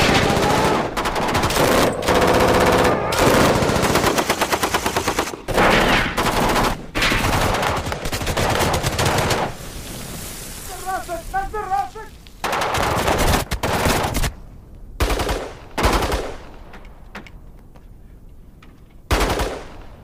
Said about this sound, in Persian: ابو خالد از ماشین پیاده میشه، شلیک میکنه. اردلان چند تاشونو میزنه.